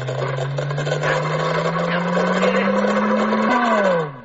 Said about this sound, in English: The fusion machine, it is working. More power, Dr. Ego, more power.